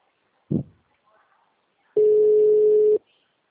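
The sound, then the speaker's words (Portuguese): A telephone ringback tone sounds on an outgoing call after an automated menu: one steady, mid-pitched tone lasting about a second, preceded by a brief separate burst of sound. “Tá chamando.”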